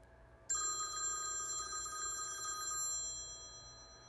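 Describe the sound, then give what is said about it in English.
A telephone rings for an incoming call: one bright, sustained electronic ring of about two seconds, loud and steady, then cut off, leaving a quiet hum. “I think we're getting a call.”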